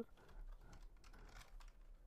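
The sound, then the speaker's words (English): Typing on a computer keyboard: quick, irregular key clicks, faint and alone, running steadily throughout. “oh god, I can't spell Google if I'm on my own apparently. Google. If I type in AIM, will it pull it up or do I need to put in AOL?”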